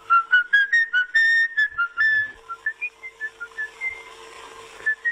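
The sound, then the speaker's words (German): A man whistles a tune in a run of many short, clear tonal notes, the pitch stepping up and down from note to note, loud and steady with no talk. “Er starrt, schließt die Augen, schwankt und pfeift.”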